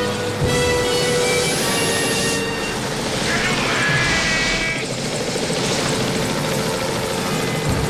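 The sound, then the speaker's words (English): Two helicopters race between tall buildings, making a loud, steady roar of engine and rotor that holds its level throughout with no break. “The two helicopters race between the tall buildings.”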